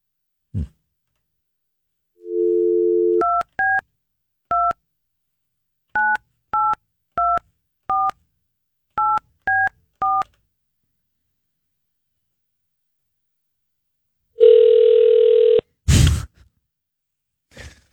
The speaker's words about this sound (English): And it's an old ring. Two ringy dingy. Three ringy dingy.